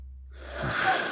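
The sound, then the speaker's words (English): A big intake of breath, an airy breathy hiss that starts from silence and swells louder over about a second. “He takes in a big breath.”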